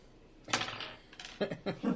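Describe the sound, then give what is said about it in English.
Coins dropped onto a counter: a few sharp clinking impacts, the first the loudest, then a quick cluster of lighter metallic strikes, with no voices. “That's the coins you're dropping on the counter. If you drop the coins on the counter, he's not even looking at them.”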